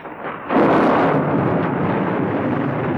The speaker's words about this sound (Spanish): De nuevo la tormenta. Ha vuelto de repente, al igual que como se fue.